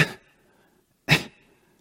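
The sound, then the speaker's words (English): A voice imitates a woman instructor's distracting habit of a little exhale of air: two short, breathy puffs about a second apart, each soft and quickly fading, with no other sound between them. “while she was talking, and she would say a few more words and do this little exhale of air. It was really distracting.”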